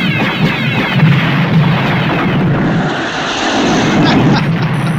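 Fighter craft guns firing at an enemy during a dogfight, merged with a roaring engine drone. The sound is loud, dense and continuous, with no separate shots standing out.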